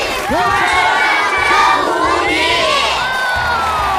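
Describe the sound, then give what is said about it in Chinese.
A crowd shouts a team slogan in unison during a staged group introduction, loud massed voices of adults and children holding a continuous roar for about four seconds. “欢迎收割机方阵，让我们一起喊出你们的口号： 金曲 收割机。”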